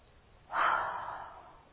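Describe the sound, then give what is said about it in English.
A person lets out a single breathy groan that starts abruptly, then tails off slowly into a soft, airy exhale. “Okay, that's the groan it means.”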